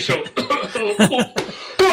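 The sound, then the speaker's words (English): A person coughs into a microphone, with a few harsh, throaty bursts spaced unevenly and loud against near silence. “Sorry for coughing into the microphone there.”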